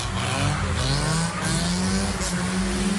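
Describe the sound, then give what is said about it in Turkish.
Two cars drifting at an intersection make a continuous, loud engine roar with a strained humming tone that holds steady and edges slightly upward throughout. “Kavşakta drift atmaya kalkışan iki sürücü trafik güvenliğini tehlikeye düşürdü.”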